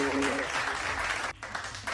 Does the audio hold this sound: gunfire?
no